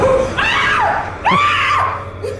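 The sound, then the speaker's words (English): A woman screams during an exorcism: two drawn-out, strained cries that waver up and down in pitch, each lasting close to a second, with a short break between them. “Mammon, Jezebel, and then he like touches the Bible to her and she goes, ah, that was that sound you just heard.”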